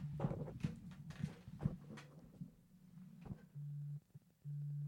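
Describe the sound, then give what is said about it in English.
A phone tone from a call being screened: two steady, low, buzzing beeps of equal pitch, each about half a second long, come after a stretch of faint knocks and rustling. “Wow. That's the sound of somebody getting screened.”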